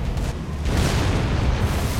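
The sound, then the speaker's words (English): A video game explosion blows up the player, heard as a heavy, low rumbling boom with broad, roaring noise that swells partway through and keeps rumbling to the end. “Oh. I think you blew me up.”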